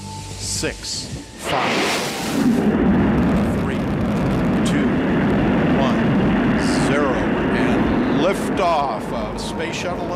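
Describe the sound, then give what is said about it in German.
A space shuttle lifts off with a deep, continuous rumbling roar. It begins after a short opening and then holds loud and steady to the end, with a voice audible over it. “Das Space Shuttle hebt ab.”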